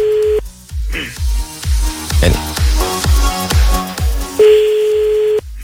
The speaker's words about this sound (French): On appelle, bonne chance Kevin.